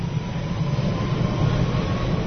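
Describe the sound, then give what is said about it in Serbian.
A London Underground train rumbles in a low, steady roar, with a faint sustained tone above the dense mechanical noise and no voices. “Čuveni metro ili tube, kako ga Britanci zovu, funkcioniše besprekorno.”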